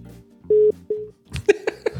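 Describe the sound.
Incoming telephone call signal: two short, steady, mid-pitched electronic tones in quick succession over a low hum. The first tone is louder than the second, and a busier stretch of sound follows.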